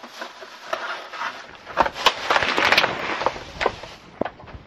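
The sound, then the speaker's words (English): Butter melting in a pan gives off fairly quiet crackling and sizzling, with many small, sharp pops scattered over a soft hiss and no voices. “All right, we've got our butter in the pan. I'm going to let that start melting down.”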